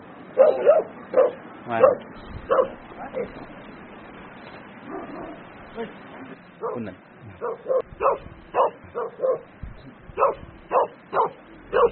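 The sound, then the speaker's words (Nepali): Dogs bark as they chase another dog near a yak herders' shed in Sikkim. Many sharp barks and yips come in irregular bursts, with voices heard in the background. “हाम्रो कुकुरलाई त इन्डियाको कुकुरले सिक्किमको कुकुरले नेपालको कुकुर खेदाइदियो”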